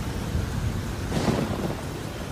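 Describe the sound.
A violent thunderstorm with steady rain hissing down, while a low thunder rumble swells up partway through and then eases back into the rain.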